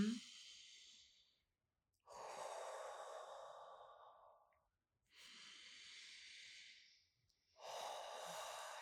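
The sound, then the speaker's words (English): Slow, deep human breathing: four long, airy breaths, alternating inhales and exhales with a soft hissing, sighing quality and short pauses between them, fairly quiet. “so by me literally putting my hand on you and deep breathing so you can hear it”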